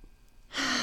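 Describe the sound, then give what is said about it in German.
Deep inhalation through the nose into the belly: after a quiet half-second, a loud, breathy rush of air begins and continues steadily to the end. “vielleicht möchtest du jetzt einfach mal kurz in deinen Bauch einatmen, durch die Nase durch.”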